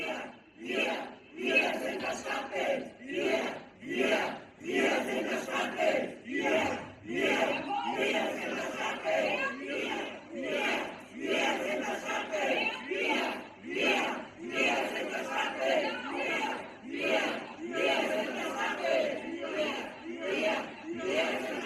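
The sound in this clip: Protest crowd chanting slogans against Merz, such as 'Brandmauer hoch' and 'FCK Merz': many voices shout in loud, rhythmic unison bursts that repeat steadily throughout the stretch.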